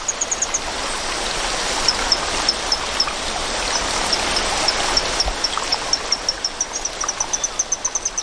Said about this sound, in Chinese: 水流的声音还是太大了，需要更强效的措施。